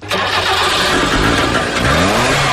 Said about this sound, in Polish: Zawsze chciałem mieć Trabanta i w końcu przyszedł moment, że sobie kupiłem, nie? Ale co takiego fajnego jest w Trabancie? Chyba ten silnik, ten zapach. To jest dwusuw, tak?